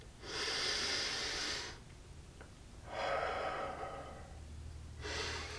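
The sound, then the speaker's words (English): Deep breaths drawn in through the nose, sniffing: two long, hissing inhalations separated by a pause, then a third that begins near the end and is cut off. “The king breathed in again.”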